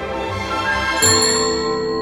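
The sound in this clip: A bell rings with a single bright metallic strike about halfway through, its clear ringing tone lingering over steady sustained tones until the end.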